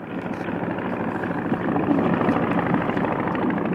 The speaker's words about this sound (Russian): а это что такое? Это самолет.